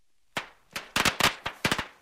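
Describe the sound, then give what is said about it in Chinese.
Firecrackers crackling and exploding at a roadside gathering, with rockets shooting up and bursting in the air: a rapid series of loud, sharp bangs, some in close pairs, deafening and with no voices. “鞭炮声噼啪响起，见货还有几只高升窜到半空炸开，震耳欲聋。”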